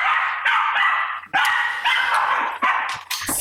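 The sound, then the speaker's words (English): A female dog barks and yelps frantically while agitated at a door, a loud, nearly continuous string of high, whining barks broken into many bursts with brief pauses between them. “That's my dog freaking out. She's chewing on the door handle.”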